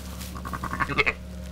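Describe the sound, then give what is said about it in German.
Wet smacking from a lamb drinking milk in a barn: a quick series of short, soft smacks over a steady low hum. “Und dann hört man das, wenn man leise ist. Gut, im Stall ist das jetzt nicht so leise, aber dann hört man das Schmatzen auch.”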